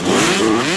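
A motocross bike engine revs in a short, loud burst, a steady buzzing drone with a rough mechanical edge that lasts under a second.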